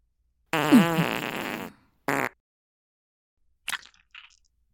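Farts: a long, buzzy, wavering one, then a short sharp burst, followed after a pause by two faint little sputters.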